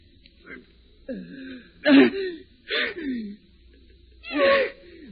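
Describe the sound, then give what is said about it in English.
A person being strangled chokes and gasps in a series of strained, rasping breaths and gurgling throat sounds, some sharp and some drawn out, with short silent pauses between them. “Got my throat. Choking.”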